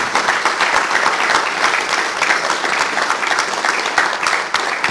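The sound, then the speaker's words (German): Audience applause at a church community gathering in a hall, given in thanks to an organizer: dense, even clapping from many hands, sustained at a steady loud level for the whole stretch. “Aber ich würde ganz gern auch nochmal Steffen einen Applaus geben”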